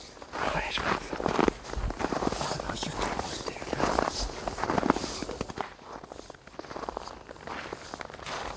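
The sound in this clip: Footsteps of two activists pacing back and forth outside at night to keep warm, with many scuffing, uneven steps and faint voices at times.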